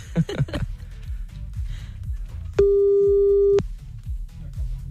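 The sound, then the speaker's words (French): Telephone ringback tone while calling someone back: one steady mid-pitched beep lasting about a second, over a rhythmic music bed. “on le rappelle encore une fois”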